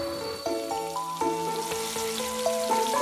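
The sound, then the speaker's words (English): Food sizzles and fries as a meal is cooked at home, a steady crackling hiss running throughout beneath sustained, shifting tonal notes that sound like music. “My wife is cooking something delicious.”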